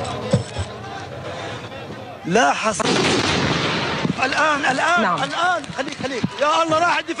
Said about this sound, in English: A second Israeli attack, this time from a tank, hit the stairwell.